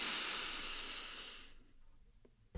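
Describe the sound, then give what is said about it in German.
One long, deep breath drawn in through the nose during a guided relaxation exercise. It is an airy hiss that starts strong, fades gradually over about a second and a half and is heard alone. “Und das geht am besten, wenn wir 3-mal tief ein- und ausatmen. Und zwar durch die Nase ein”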